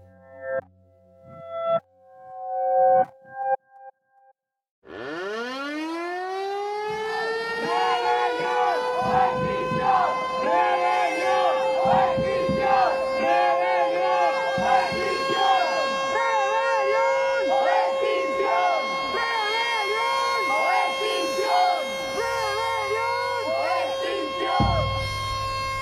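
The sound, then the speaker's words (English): Sirens wail at an Extinction Rebellion protest action among a large crowd with flags. A few short, loud bursts come first, then a siren rises in pitch and holds a steady, warbling tone, with crowd voices underneath. “So close your eyes and imagine you are surrounded by an Extinction Rebellion action. Imagine flags, colours, loads of people. This is what you would hear.”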